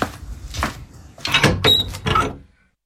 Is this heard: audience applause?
no